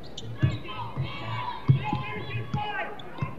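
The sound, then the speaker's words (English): A basketball dribbled on a court during a close one-point game, with several dull, low thuds bouncing at an uneven rhythm, the strongest near the start and middle, over a steady bed of crowd noise and indistinct voices. “on the bounce. He's picked up by Dow. Dribbles behind his back.”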